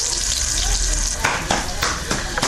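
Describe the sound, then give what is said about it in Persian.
Bolani, a stuffed flatbread, frying in oil in Shahrara garden: a steady, loud sizzle with hissing surges and some stirring. “مصاحبه ای را با یک تن از زنانی که مصروف پختن بولونی در باغ شهرارا است انجام داده است”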